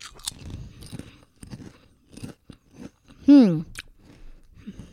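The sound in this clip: Crunching Cheeto-flavored Lay's potato chips: a series of short, crisp bites and chewing crunches, irregularly spaced, with brief pauses between them.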